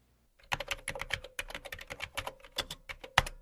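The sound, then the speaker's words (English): Typing on a computer keyboard: many quick keystrokes in an uneven rhythm with brief pauses, fairly faint, with one sharper key strike near the end. “Opening a new message draft, Fox began to type.”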